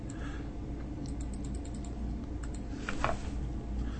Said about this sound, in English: I'll type the link to the slides into the window so that you can see it again.